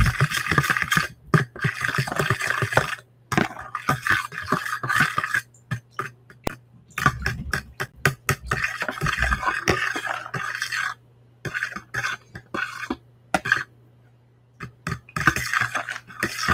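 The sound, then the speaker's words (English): A fork whisks a flax mixture in a bowl, making rapid metallic clinks that come in steady bursts with short pauses between them, over a faint low hum. “Now I'm just going to whisk all this together with a fork.”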